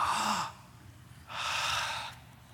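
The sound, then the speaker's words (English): An audience breathes together in two soft, breathy swells, a group exhale and a collective deep breath, separated by a short quiet pause. “Just an exhale, because this helps. Don't exhale on the person next to you, all right? We're getting into flu season. Just exhale toward me. There's enough of a barrier here. We'll be fine. Take in a deep breath.”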